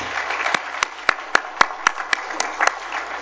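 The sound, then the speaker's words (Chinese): Rhythmic group clapping at a gathering honouring fathers over seventy: about a dozen crisp, evenly spaced claps at a steady, fairly quick beat, loud and clear with no talk over them. “我们给你鼓掌一下来。”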